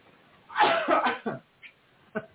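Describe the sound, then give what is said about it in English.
Coughing from someone who has just choked on coffee: a strong burst of harsh coughs, then a few smaller, sharp coughs after short pauses, with no talk over them. “choked on some coffee.”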